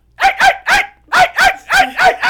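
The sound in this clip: A man imitates a dog barking in a restaurant kitchen, doing a realistic chihuahua-like yap: seven sharp, high barks in a quick, uneven rhythm, loud and alone with no talk.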